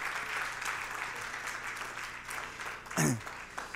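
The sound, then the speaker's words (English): Audience applause welcoming a speaker to the stage: dense, steady clapping that holds for the whole stretch, swelling slightly near the end. “let's put our hands together and welcome Matt Hatch to the stage”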